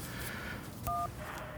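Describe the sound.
A telephone dialing tone sounds once as a short, steady dual-pitched beep. It sits over a constant hissy background of noise.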